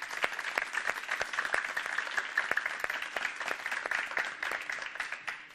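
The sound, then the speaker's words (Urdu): Applause from an audience welcoming three teams, a dense, even patter of many hands clapping continuously at moderate volume with no pause. “اور زوردار تالیوں سے ان کا استقبال کرتا ہوں۔”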